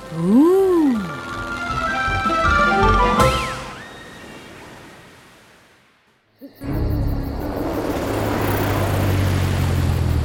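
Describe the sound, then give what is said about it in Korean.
A cartoon airplane carrying a car and a bicycle flies: bouncy sliding tones come first, then the sound fades to near silence, and a loud, steady engine roar bursts in and holds to the end. “비행기는 자동차와 자전거를 태우고 하늘을 날아”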